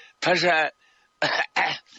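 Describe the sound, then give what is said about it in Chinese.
A voice imitates coughing: a drawn-out voiced throat sound, then a pause, then two short, rough coughs in quick succession. “这周小康啊咳嗽了两声”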